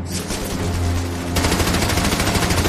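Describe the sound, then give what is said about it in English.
Machine gun fire pins down an infantry platoon in combat, a dense, continuous stream of rapid shots that stays loud throughout and turns sharper and more distinctly pulsed partway through. “With his platoon held up by the machine gun fire, Baker takes action.”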